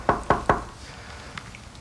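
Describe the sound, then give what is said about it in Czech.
Knocking on a door: three sharp, evenly spaced raps in quick succession, followed after a pause by one fainter tap. “Klepeme na dveře.”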